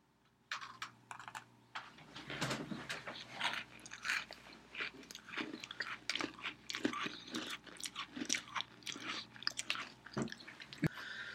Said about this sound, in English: so we've we've taken a bite of these Oreos